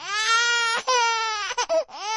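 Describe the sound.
A baby cries after being startled by a loud voice, a loud, sustained high wail broken by a few short catches of breath, heard alone.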